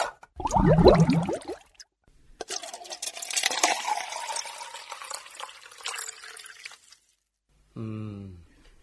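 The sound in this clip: Drinking water is poured, a steady splashing pour lasting several seconds, with brief voices just before and after.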